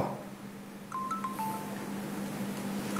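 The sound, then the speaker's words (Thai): Short electronic dialing beeps from a mobile phone as someone repeatedly calls a number that goes unanswered. A few brief, faint tones sit over a steady low hum, with one more beep near the end. “ไม่ใช่เสียงเจนหมายถึงเสียงโทรศัพท์มือถือได้ยิน”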